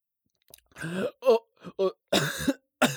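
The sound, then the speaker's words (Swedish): Coughing from a person with asthma who began coughing while mowing grass: several harsh, voiced coughs in short irregular bursts with brief gaps between them, and no speech. “Och så började jag hosta. Nu har jag så tungt att andas.”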